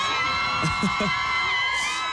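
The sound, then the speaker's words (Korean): Loud screaming and cheering from a live studio audience, high-pitched voices blending into a dense, steady roar that holds without a break from start to finish. “성화민 보고 싶었던 사람 소리 질러!”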